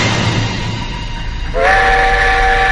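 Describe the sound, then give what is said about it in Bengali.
An approaching train produces a loud, continuous rumble. Partway through, a sustained multi-tone horn blares in on top and holds steadily to the end. “হুঁশ হুঁশ করে তেড়ে আসছিল একটা আওয়াজ। রেলগাড়ির আগমনে কানে আসতেই আমি চমকে উঠলাম।”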